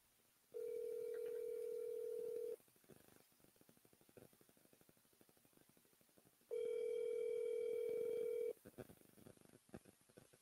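An outgoing phone call rings unanswered. Two long, steady, low buzzing ringback tones of about two seconds each are separated by a longer quiet gap, with faint background noise between them.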